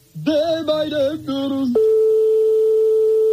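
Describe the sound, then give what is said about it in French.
A telephone ringing unanswered at a private home: a warbling electronic tone pattern with harmonics that breaks in short segments, then settles into a steady, moderately loud single-pitch tone that holds to the end. “comme on est chez des particuliers, forcément, ça sonne dans le vide longtemps et ça peut tomber sur un répondeur”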